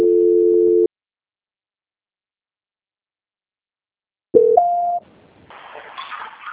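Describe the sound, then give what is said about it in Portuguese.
Telephone call transfer tones: a steady electronic beep, then a long silent gap, then two short beeps stepping upward in pitch, followed by faint line noise. “Então, vou transferir você para o pessoal da auditoria”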